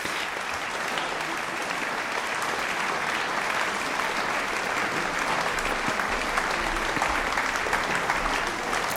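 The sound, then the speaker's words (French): Concert audience applauding and calling the performers back for encores: a sustained, dense roar of clapping, even and unbroken from start to finish. “Mais le changement de plateau ne commence pas tout de suite parce qu'il y a de nombreux rappels. Le public est visiblement conquis.”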